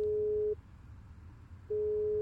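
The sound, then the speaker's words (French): Telephone ringing tones as a call is placed, a steady low electronic tone heard twice, separated by a silent gap of just over a second, with no voices. “pour en discuter, je vais téléphoner à un professeur de littérature italienne, Manuele Gragnolati”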